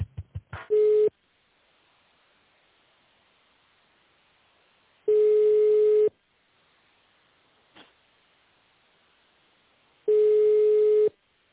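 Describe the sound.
A telephone ringback tone plays while a call is being transferred. Three steady mid-pitched beeps, each about a second long, come roughly five seconds apart, with a few clicks at the start and a soft click between tones.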